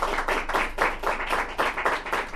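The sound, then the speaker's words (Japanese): Audience applause after a poetry reading: brisk, continuous clapping with a slightly pulsing rhythm, moderately loud and without voices. “作品が終わった後の、ね、拍手が、ね、自然と起こりましたね”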